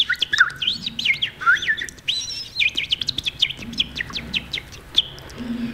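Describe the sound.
A human imitation of a thrush's song, with many quick chirps and warbling whistled phrases in varied, rapid bursts, fairly loud and with no talk.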